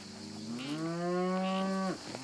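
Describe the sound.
A single long, loud moo from a large Maremma bull or cow in former marshland. The low voice rises slightly, holds steady for over a second, then cuts off abruptly, followed by a faint trailing breath.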